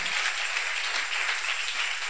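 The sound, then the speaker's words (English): Applause from hands clapping, a dense, even patter of many claps at steady loudness for the whole stretch, with no talk over it. “Oh, you can clap those hands.”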